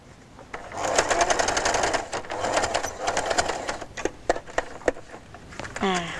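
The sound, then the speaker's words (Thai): A sewing machine stitches along a zipper, running in rapid bursts of dense, rattling needle strokes separated by short pauses, ending with a few separate clicks and a brief whir. “แล้วเราก็วางเข็มปักลงนะคะแล้วก็เย็บใกล้ถึงปลายก็อย่าลืมย้ำนะคะ”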